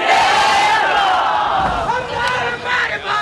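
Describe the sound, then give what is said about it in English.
Party supporters cheer at a college building's ribbon cutting in Karachi, a loud crowd of shouting and whooping voices that stays sustained throughout, swelling again in a few bursts near the end. “Syed Mustafa Kemal was able to win the mayor's office and cut the ribbon at a college building as his party supporters cheered.”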